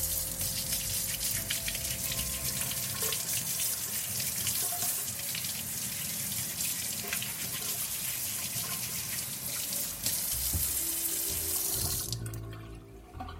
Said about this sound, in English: I am just going to wash them and scrub them down.